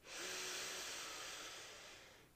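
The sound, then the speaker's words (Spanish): A deep inhalation through the nose during a guided breathing exercise: one long, steady airy breath that rises quickly, holds for about two seconds and tapers slightly toward the end, heard alone without talk. “Una vez más, inhala por la nariz.”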